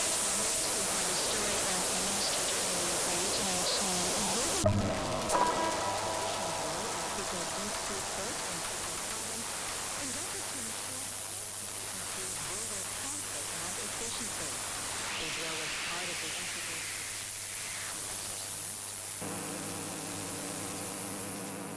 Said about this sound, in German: Several jamming signals, and the Soviet used so-called noise generator. It was an electronically generated noise